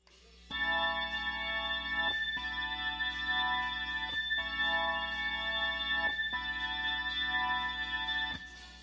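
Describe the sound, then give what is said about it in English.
Hammond organ track in a rock song: rich, steady sustained chords held in even blocks of about two seconds, each change marked by a brief break, with no voices. “And there's a Hammond organ track. It only appears briefly twice during the song and sounds like this.”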